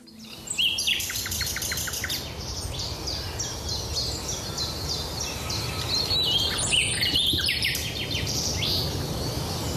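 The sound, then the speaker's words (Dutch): A nightingale sings long, varied phrases of rapid whistles, trills and chirps. The song is loud and continuous over a steady low background noise. “Mieke Pieren Olijhoek, die stuurde ons vorige week een nachtegaal vanuit Huizen. Maar deze zat nog dichterbij en klonk nog mooier, schreef ze.”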